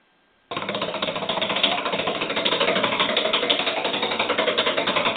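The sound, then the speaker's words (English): A prize wheel being given a hard tug and spun, breaking abruptly from near-silence into a loud, continuous rapid rattling whir that holds steady for several seconds. “I'll go spin the wheel. It's my head hung in shame. I'm reaching up to grab the wheel and give it a good tug.”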